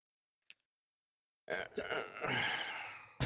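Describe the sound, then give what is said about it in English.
A person groans in one drawn-out, voiced utterance lasting nearly two seconds, rough and fairly loud, preceded by a tiny click and followed by a short abrupt burst of noise. “That groan is basically the exact reaction you should be having.”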